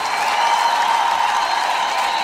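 Applause for a singer at an evening music show, a smooth, dense wash of clapping at steady volume with a sustained tone running underneath.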